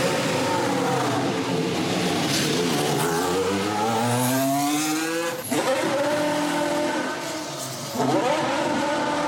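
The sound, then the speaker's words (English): A Haas Formula One V6 car leaves the pits, its loud, high-pitched engine climbing steadily in pitch through rising sweeps. A sharp gear-change dip comes midway, the revs climb again, and a second brief drop follows near the end. “I've actually got this nice clip of Romain Grosjean coming out of the pits above the Haas garage. It's very nice. Why V6 still sound very good.”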